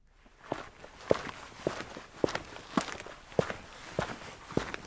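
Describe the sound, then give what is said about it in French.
Footsteps on concrete: eight steady, evenly spaced steps with crisp heel strikes and softer scuffs between them, heard alone. “Oui, ce sont des bruits de pas sur le béton.”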